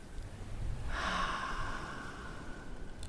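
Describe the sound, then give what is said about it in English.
A deep inhale through the nose during a guided breathing exercise: a soft, airy rush that swells after a quiet start and tapers away over about two seconds, faint and without speech. “Inhale through your nose”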